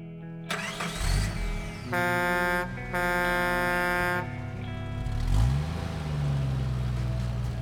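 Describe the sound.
Engine of a large, blood-spattered truck starting and driving away, a loud harmonic roar that steps up and down in pitch with revving and swells again near the end.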